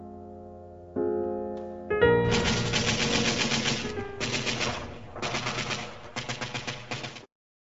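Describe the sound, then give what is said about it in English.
Automatic weapon fire from the First World War crackles in four rapid, rattling bursts separated by short gaps. It is loud and harsh and follows a low droning opening. “New automatic weapons were able to stop the advance of the infantry.”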